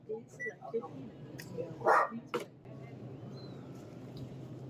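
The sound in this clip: A dog barks in a couple of short, sharp bursts at a supermarket self-checkout, rising briefly over a recorded machine voice and steady store hum.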